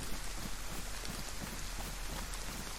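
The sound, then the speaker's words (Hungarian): Rain falling in a video game: a dense, steady patter of drops that stays even in loudness throughout, with no voices over it. “Esik az eső, és hideg van.”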